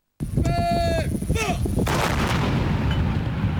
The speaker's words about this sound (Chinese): 榴弹炮分队发射照明弹，照亮目标区域。各班组迅速选用适配弹种，对不同目标开火，将目标全部摧毁。